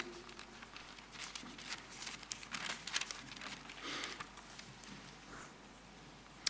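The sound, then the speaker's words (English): Bible pages turn to John chapter 20 with a soft papery rustle and crinkle that swells in the middle and fades away, faint and continuous over several seconds. “So why don't you keep a thumb in John chapter 2 and turn to John 20, page 1090.”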